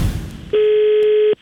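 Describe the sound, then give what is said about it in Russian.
A telephone ringback tone sounds while calling a small hotel: a single steady, clear electronic beep holds for most of a second after a stretch of low, muffled noise, then cuts off abruptly. “Поэтому я решил позвонить в небольшую гостиницу с очень большой просьбой.”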